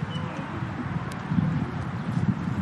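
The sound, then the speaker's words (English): Wind blowing in a steady, rough, low rumble with a rustling texture, continuous throughout without distinct gusts or other sounds. “That was the wind.”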